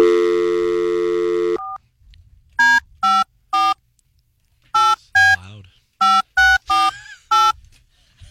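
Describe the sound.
Telephone dialing tones: a steady tone holds for about a second and a half, then nine short touch-tone beeps of varying pitch follow in quick, uneven bursts.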